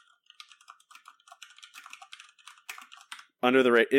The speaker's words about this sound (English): Up until today, literally I just typed it in.